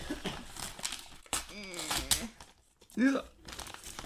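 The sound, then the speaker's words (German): Wrapping paper crinkles and tears as a second gift is unwrapped. Bursts of rustling come in uneven spurts, with people talking over and between them. “Das zweite Geschenk. Er freut sich seiner Entpackung.”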